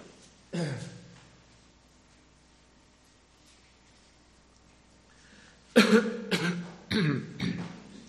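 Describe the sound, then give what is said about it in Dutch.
A speaker in a church service clears his throat, first in one short rasp. After a long quiet pause comes a cluster of several harsher, louder throat-clearing bursts in quick succession. “Dat moet altijd lukken als je dan van voor staat dat er juist een iets in uw keel rammelt.”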